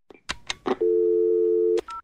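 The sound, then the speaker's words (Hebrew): Telephone ringing tone while placing a call. A few sharp clicks come first, then one long steady low tone of about a second, followed by a brief higher-pitched beep. “חייגתי לפרופסור דפנה יואל מבית הספר סגול למדעי המוח באוניברסיטת תל אביב, להוטה להבין קצת יותר.”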